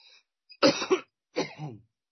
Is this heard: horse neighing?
no